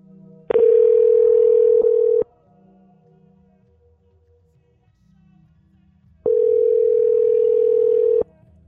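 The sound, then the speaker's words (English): Telephone dial tone after a call disconnects: two long, steady, mid-pitched tones of about two seconds each, separated by a quiet pause of several seconds with faint low hum. “I think the phone got disconnected just then.”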